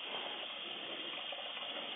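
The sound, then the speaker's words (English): Water running from a kitchen tap, a soft, steady hiss that stays even throughout with no other sounds. “I'm sorry, I'm running this water. I'm sorry, everybody. I'm about to get out this kitchen.”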